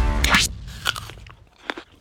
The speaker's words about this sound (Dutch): Bijt u nog met vertrouwen in een appel?